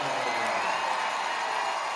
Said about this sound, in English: A top prospect in the Baltimore organization going to come up to a roaring round of applause.